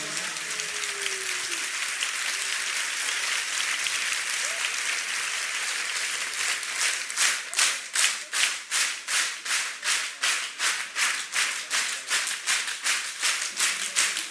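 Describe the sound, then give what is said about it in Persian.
An audience claps at a religious birthday celebration, starting as a dense wash of applause and then settling into loud, steady rhythmic clapping in unison. “بزن اون کفی که باید بزنی”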